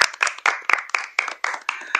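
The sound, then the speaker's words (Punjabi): Loud audience clapping in a studio, struck in rhythm as about nine evenly spaced, sharp bursts, each decaying before the next. “ਜ਼ੋਰਦਾਰ ਤਾੜੀਆਂ”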